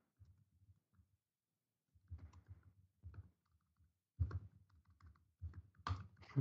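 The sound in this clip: Keys clatter on a computer keyboard as someone types a Star Wars trivia question into a Google search, in irregular bursts of quick clicks separated by short pauses.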